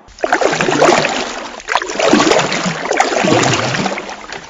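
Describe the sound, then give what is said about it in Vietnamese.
Paddles splash and churn water as a small canoe-like boat is rowed hard in pursuit, a continuous rushing wash that swells and eases in a few surges. “cong lưng bơi rút để đuổi theo chiếc xuồng chở Huỳnh Mai.”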